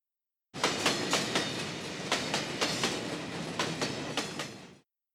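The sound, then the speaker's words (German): A moving train rolling along the rails, a steady loud rumbling roar with many rhythmic clickety-clack wheel beats. It starts abruptly and fades out at the end. “Fahrender Zug.”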